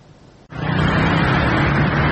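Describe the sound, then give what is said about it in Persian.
Sunday street traffic in Tehran: a quiet start gives way to a dense, steady roar of road noise that stays loud and even to the end. “ترافیک روز یک شنبه خیابان‌های تهران”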